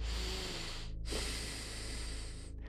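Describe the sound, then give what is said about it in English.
A deep breath: a long airy inhale, a short silent pause, then a long steady exhale, loud and breathy with no talking. “close your eyes, take a deep breath.”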